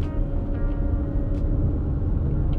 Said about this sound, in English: I'm sitting here driving. I'm driving home from work right now.